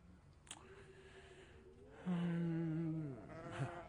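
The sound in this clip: Sheep bleating in a drought, the animals reduced to skin and bone: a long, wavering, mid-pitched bleat fills the second half, after quieter breathy sounds.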